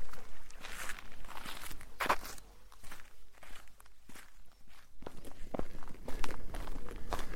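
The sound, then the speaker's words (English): Footsteps of a walker coming down a path through a valley of bluebells on the Two Moors Way on a spring day. Many steady, even steps crunch at a walking rhythm throughout. “I'm just walking through, well, I've just come down the path which took me through a valley of bluebells”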